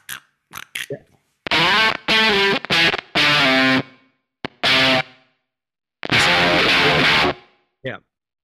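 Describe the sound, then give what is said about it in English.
Harsh, buzzy fuzz synth-guitar notes come from a Kemper Profiler using wave shaper and bit shaper effects. Several short gated bursts of dense distorted tone are separated by abrupt silences, with a few quick stabs at the start and end. “So if you're looking for nasty fuzz sounds or adding some stuff for a fuzz, then Wave Shaper, Bit Shaper are really great to use.”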